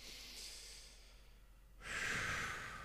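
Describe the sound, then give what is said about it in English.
A person takes one quick, deep breath, a soft, airy rush of inhalation that swells briefly, faint against quiet background hiss. “I'm just going to take one quick deep breath to kind of center my mind”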